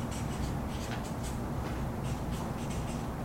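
Pen strokes on a surface while someone draws a three-legged stool diagram, a continuous dry scratching with many short, uneven strokes at a steady level and no voices.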